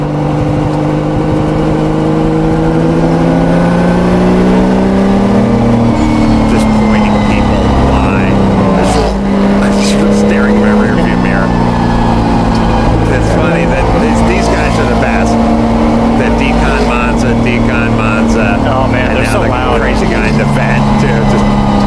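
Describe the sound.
A race car drives past on a track at historic races during Monterey Car Week, its engine roaring loudly and continuously, with the pitch shifting and swelling as it goes by.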